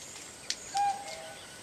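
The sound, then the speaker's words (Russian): A cuckoo calls in a film scene of tourists camped by a tent and campfire, a faint two-note hoot with the second note slightly lower and softer. “Девушка, услышав кукушку, смотрит вдаль. Кукушка, кукушка, сколько мне жить?”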